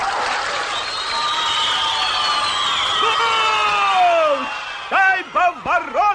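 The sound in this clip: A hockey crowd cheering after a goal in an animated match, a steady roar of crowd noise carrying long whistle-like tones that glide downward, followed by a few short, bouncing whoops near the end.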